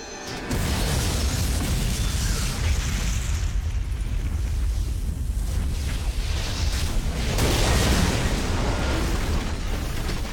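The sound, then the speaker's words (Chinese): Octopus bombs launched by Sentinels explode and destroy the hovercraft Nebuchadnezzar in The Matrix Reloaded. A loud, sustained roar of blast and burning wreckage surges again toward the end. “这回哨兵们学精了，在电磁脉冲范围之外释放出了章鱼炸弹，众人不得已只好弃船逃跑，眼睁睁地看着尼布甲尼大号和老莫的救世之梦一起化作一团燃烧的废墟。”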